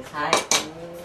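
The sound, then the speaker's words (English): Clatter of dishes and cutlery in the kitchen of a Buddhist temple-food cooking class, with a couple of bright, sharp clinks close together against a low background of kitchen activity. “To find out, I visited a Buddhist cooking class.”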